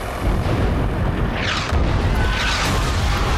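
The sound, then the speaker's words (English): Missiles explode on bridges over a river as a steady, heavy roar of rumbling blasts, with a couple of sweeping whooshes passing through the din. “Missiles are fired at the bridges crossing the river and Air Force planes zoom past.”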